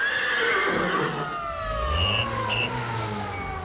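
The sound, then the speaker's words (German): A horse whinnies in the middle of a big city, a high harmonic cry sliding steadily downward over a few seconds, loud and continuous against dense background noise. “Wir hören die Pferde mitten in der großen Stadt, weil sie Reste des Unmittelbaren sind.”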